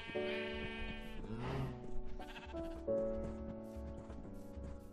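Sheep bleating in a video game, a wavering, nasal bleat repeated several times over steady background music, fairly loud and with no speech.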